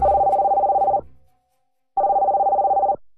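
A telephone rings in two loud one-second bursts of rapid, trilling electronic tone, with a silent pause between them and no other sound.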